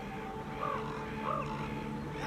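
A raven caws twice, each a harsh, arching call, evenly spaced over a steady, faint background drone.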